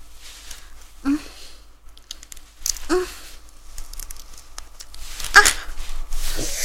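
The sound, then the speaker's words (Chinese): Nylon stockings being torn by hand, heard as a few sharp ripping and crinkling bursts over a faint, steady background hiss. “你们听得到我撕丝袜的声音吗？听到我撕开丝袜的声音了吗？”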